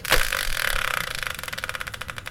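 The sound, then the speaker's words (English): A prize-wheel spinner turns, giving a brief louder whirring burst followed by a fast, steady train of ratcheting ticks. “So let's bring in the Wheel of Fortune style spinner and find out what today's subject will be.”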